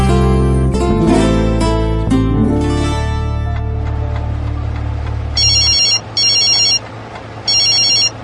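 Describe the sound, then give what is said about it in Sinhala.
Mobile phone ringtone ringing: after a stretch of loud music, several bursts of a bright, trilling electronic ring repeat with short gaps between them. “Phone එකේ සද්දෙට මං උඩ ගිහින් බිම් වැටුණා.”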